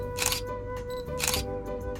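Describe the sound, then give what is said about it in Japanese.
Camera shutter clicks while photographing an airplane among green, grassy surroundings: two crisp bursts of clicking about a second apart, with a few fainter clicks, over a steady low hum. “緑の中の飛行機を写真に収めた。”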